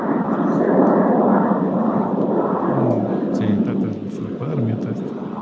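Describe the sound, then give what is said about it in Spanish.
An airplane gives a steady, broad roar that fills the whole span at an even loudness. Faint voices sit low beneath the engine noise. “Escuchamos el avión.”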